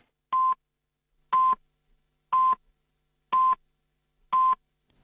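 A radio station in Hong Kong sounds its hourly time-signal pips before the news: five short, clean, mid-high beeps, evenly spaced about a second apart, with silence between them.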